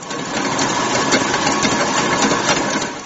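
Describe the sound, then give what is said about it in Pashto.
Steady mechanical whirring and clattering from bakery kitchen machines turning out cookies and cakes before Eid, a dense, even, noisy drone with faint rattling and no pauses. “دا د کلچې، کیک او بیکری سامان پخولو یو پخلنځی دی. زیات شمیر کارکوونکي او ماشینونه لګیا دي چې اختر ته لازم مواد تیار کړي.”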